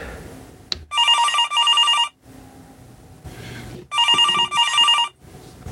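A telephone rings for an incoming call with two loud trilling ring bursts. Each burst splits into two pulses, and a quiet gap separates them, with no talk over the ringing.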